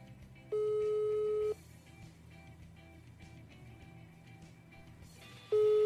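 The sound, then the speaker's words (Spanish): A ringback tone sounds on an outgoing telephone call. Two steady, mid-pitched tones each last about a second, spaced roughly four seconds apart, over a low, continuous background hum. “Vamos a marcarle. Este se. Ahí está marcando.”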